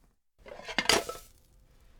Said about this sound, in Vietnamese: Một tay giữ chảo, tay kia giữ đĩa, rồi úp chảo thật nhanh để phần trứng tráng sẽ chuyển qua đĩa.